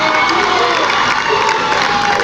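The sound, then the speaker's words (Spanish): A crowd in Cancún cheering and applauding: a loud, continuous roar of many voices with shouts and whoops that holds steady at full volume throughout. “los aplausos no son para nosotros, los aplausos son para ustedes, que sin ustedes no queríamos nada.”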